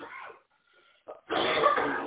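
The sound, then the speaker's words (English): A person coughs while trying to keep the cough under control. A brief, muffled hack is followed by a longer, harsh, rasping cough. “I was trying to keep my cough under control, too.”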